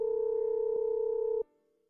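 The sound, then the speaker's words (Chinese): A telephone tone after a number is dialled: a single steady, mid-pitched electronic tone that holds evenly for about one and a half seconds, then stops abruptly, leaving a faint hum. “他翻出电话簿里的一个电话，直接按了出去。”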